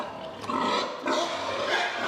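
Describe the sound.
Pig squealing and grunting from a herd of young sows at feeding time, kept in individual feeding stalls; a continuous, noisy chorus that swells into two louder surges.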